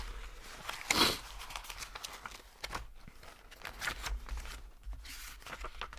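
Paper rustling as a dairy farm's October milk payment statement is opened for the first time and its pages turned: one louder crinkling rustle near the start, then scattered soft crackles and brushing sheet sounds.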